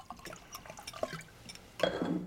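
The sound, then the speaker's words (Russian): Wine is poured from a bottle into glasses as faint, soft trickling and splashing that swells into a louder gush near the end. “Наливает вино, изящно управляясь с бутылкой и бокалами.”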